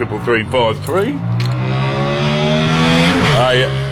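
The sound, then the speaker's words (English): A motorbike engine passes on a busy Saturday morning street, droning steadily with layered harmonic tones and a noticeable pitch shift near the end. “Early morning motorbike.”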